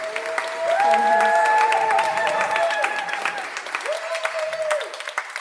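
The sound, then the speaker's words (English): Applause from a meeting audience welcoming a man back to the front: steady, dense clapping that fills the whole stretch, with voices sounding over it. “Because, yes, let's give him a hand.”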